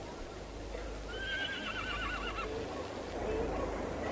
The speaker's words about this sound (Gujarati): ઘોડો એક જ છે, શું મારી સાથે બેસશો કે?